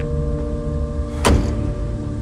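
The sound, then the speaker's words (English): A single car door knock as a driver gets out of a Porsche, one short sharp thud midway through over a steady low hum. “Wheelman exits the Porsche. Kate passes him the duffel bags.”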